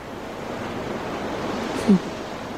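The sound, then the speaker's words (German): Sea waves wash on a beach in a soft, steady roar, with one brief louder swell near the end. “Und man hört auch nichts als das Meer.”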